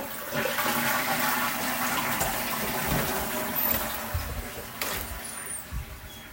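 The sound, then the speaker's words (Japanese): A toilet flushes in one long rushing surge of water that stays loud and steady for about six seconds, with gurgling through the churn and no talk over it. “流します。”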